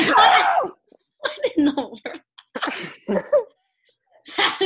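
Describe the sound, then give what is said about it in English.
One loud, sharp sneeze bursts out at the very start, followed by people talking in short bursts. “No, that was an actual sneeze.”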